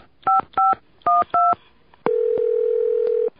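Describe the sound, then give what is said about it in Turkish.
A telephone is dialed to reach the switchboard: four short, crisp two-tone keypad beeps in quick pairs, then a loud, steady single tone holding for over a second. “Sakın telefonu bozuk olmasın. Dur bakayım, bir de santralı çevireyim.”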